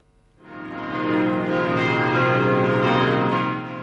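Church bells in Neuhausen am Rheinfall, Switzerland, rung at ten in the morning during a nationwide ringing: a loud, full peal swells in after a quiet start and holds steady with rich, layered ringing overtones, no voices.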